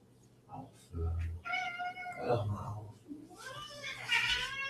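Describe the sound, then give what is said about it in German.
A tomcat meowing in a few loud, drawn-out cries with wavering pitch. The last call is higher and more strained than the earlier ones. “Ja, ich muss jetzt hier mal nach dem Kater gucken.”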